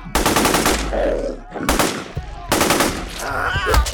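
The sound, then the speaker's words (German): Rapid automatic gunfire in an audio drama shootout. Loud, dense bursts of shots come in three stretches, split by brief pauses. “Scheiße, schießen Sie, Miguel!”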